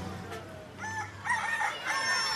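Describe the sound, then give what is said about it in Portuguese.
A rooster crows in one drawn-out, wavering call, fairly faint over a low steady background hum. “Canta o primeiro galo”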